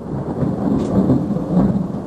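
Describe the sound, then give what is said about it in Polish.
Thunderstorm with a deep, rolling thunder rumble and a hiss of rain that hold steady and fairly loud throughout, with no voices. “A jeśli zaaranżuję taką niewielką burzę? Z grzmotami i błyskawicami?”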